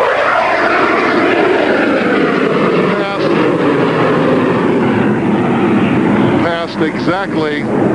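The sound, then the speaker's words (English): Two airplanes roar past together beside a reviewing stand near the Golden Gate, one with its landing gear lowered and the other clean. Their engines make a loud, steady drone, and voices are heard briefly near the end. “they passed exactly at the same time, right next to the reviewing stand, just like it says to do it in the book. I want to tell you, if you were quick, you could have grabbed the landing gear on the dirty plane as it came by.”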